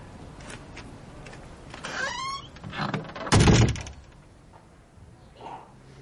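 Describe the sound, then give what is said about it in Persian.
A door is pushed shut with one dull, heavy thud near the middle, preceded by some brief, quieter movement sounds. “در رو ببند.”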